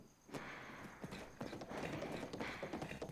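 Hooves of a horse being ridden clip-clop in a steady, even rhythm, many quick hoof falls at a moderate, fairly faint level with no talk over them.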